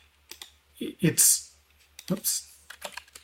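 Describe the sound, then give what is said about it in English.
Computer keyboard typing as words are entered, with a few irregular bursts of crisp key clicks separated by short pauses. “And we can, again, start typing in words.”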